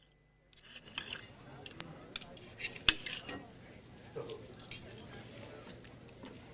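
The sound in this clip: Knife and fork scrape and clink on a plate as salad is cut into small pieces in a smart restaurant. The clinks are faint and irregular, with a few sharper clicks, under quiet voices.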